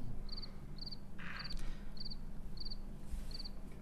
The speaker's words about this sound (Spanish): La principal cláusula de mi contrato: no hablo sin un grillo atrás.